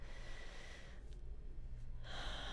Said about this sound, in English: Take one more full breath.